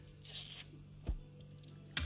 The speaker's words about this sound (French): Prezan coupe li pa moso.